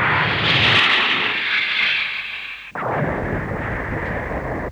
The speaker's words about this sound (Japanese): ミサイルです！ ミサイル、水平発射！